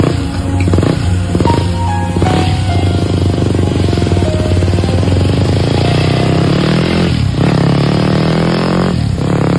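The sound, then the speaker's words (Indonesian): A motorcycle engine warms up before a ride from campus. Its loud, steady throbbing idle is rich in low harmonics, and a couple of brief whooshing swells pass over the constant engine note. “Kataku pada Budi yang sedang memanaskan motornya.”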